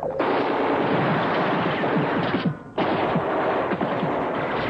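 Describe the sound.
Heavy rapid gunfire in a wartime battle drama near a mountain pass and an abandoned tank, a dense, loud, continuous rattle of shots that breaks off briefly past the midpoint, then resumes just as intensely.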